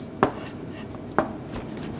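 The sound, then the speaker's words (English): A knife slices baby portobello and shiitake mushrooms thinly on a board. It makes two distinct, crisp cuts about a second apart over a faint steady background. “today i'm using baby portobellos and shiitakes so we're just going to slice these up i like to slice them pretty thin”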